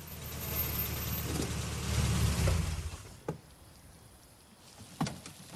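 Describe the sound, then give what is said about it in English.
A car pulls up to a stately white mansion with a lit fountain and parks. Steady engine and road rumble run for about three seconds, then ease off, followed by two sharp thuds in the quieter stretch. “Sergeant Nielsen drives up to General McKee's house and parks.”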